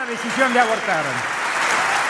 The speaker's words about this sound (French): Voilà le président argentin très applaudi.